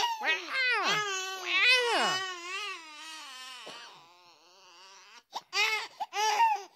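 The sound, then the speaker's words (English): A baby babbles in high, sing-song vocal runs whose pitch swoops up and down, with some whimpery notes. A quieter stretch follows, then a few short, loud bursts of babble. “Do you sound like this baby?”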